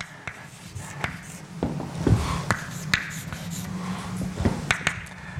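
Handwritten strokes during a lecture on DNA charge: many short, scratchy taps and sweeps of moderate loudness in an irregular rhythm, with no voices.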